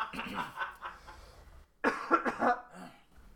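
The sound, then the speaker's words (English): Coughing in a dusty house: a few harsh, raspy bursts bunched closely together after a quieter stretch of throat noise, with brief rough sounds trailing off at the end. “I look forward to the day when I'm not paranoid about a cough.”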